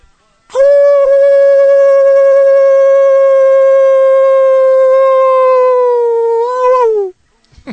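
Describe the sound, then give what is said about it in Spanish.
A person imitates a tango-style howl, voicing one long, loud note rich in overtones and holding it steady for roughly six and a half seconds before it wavers, dips slightly and breaks off. “un aullido de tu parte para despedirte. Bueno, a ver, vamos a ver qué sale. Un aullido tanguero.”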